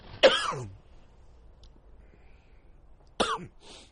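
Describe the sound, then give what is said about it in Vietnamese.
Two sudden, fairly loud coughs from a man during a Buddhist lecture, the first near the start and the second about three seconds later, separated by near silence. “Xin lỗi các diễm biết sáng này sao mà tự nhiên nó ho vậy đây.”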